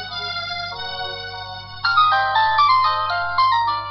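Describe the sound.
A mobile phone ringtone plays a steady melodic electronic tune of sustained tones. It grows noticeably louder partway through, and no voices are heard.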